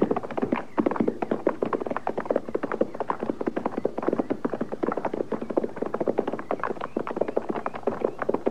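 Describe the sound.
Horses' hooves clip-clop out in the countryside as riders approach a lone shack, with many light, steady hoofbeats in a continuous rhythm at moderate loudness.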